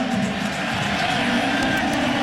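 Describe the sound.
A baseball stadium crowd cheers for its home player after a deep fly ball to center field is caught, a loud, continuous roar of voices.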